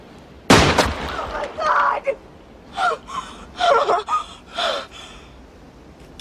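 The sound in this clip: A single gunshot rings out as a sharp, loud burst near the start. It is followed by gasping breaths and strained voices that come in short bursts.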